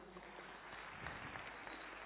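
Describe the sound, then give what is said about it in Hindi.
An audience applauds two children at a stage show, a faint, steady patter of many hands clapping that runs through the whole clip without a break. “तो इन अब बताओ मजा किसको ज्यादा है, इनको या आप लोगों को? आप लोगों को है ना, तो ताली बजाओ इनके लिए।”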